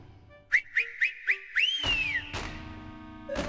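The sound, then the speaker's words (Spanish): Whistling used to herd llamas in a valley: four short, bright upward-flicking notes in an even rhythm, then one longer whistle that climbs and slowly glides back down. Clear and alone, with no talk. “allí estaban, en el valle, cientos de llamas arreadas por el dios enano y su inconfundible silbido.”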